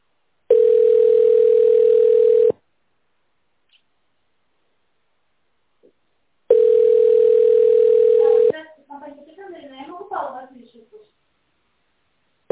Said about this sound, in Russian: Ожидайте, пожалуйста, соединения.